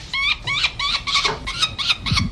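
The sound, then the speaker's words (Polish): Falcon chicks at a nest site in Płock call during ringing with a rapid string of about seven shrill, harmonic squealing cries, each short and fairly loud, over a low handling rumble. “Po raz pierwszy sokoły wykluły się w Płocku na terenie PKN Orlen w 2002 roku.”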